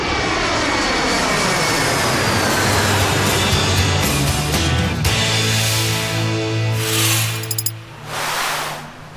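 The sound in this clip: An airplane's engines drone loudly as it approaches landing at a beach destination. The drone holds steady with sustained tonal whines, eases slightly near the end and is broken by a few brief sharp clicks.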